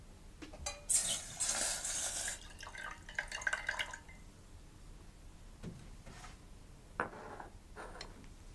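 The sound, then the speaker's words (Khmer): Coconut milk boiling and reducing in a pot, heard as faint scattered bubbling pops, with a denser burst of soft hissing and bubbling early on before it settles into sparse, quiet popping. “យើងឃើញថាទឹកខ្ទិះដូងរបស់យើងបានពុះហើយហើយក៏វាបានខាស់ខ្លះហើយ”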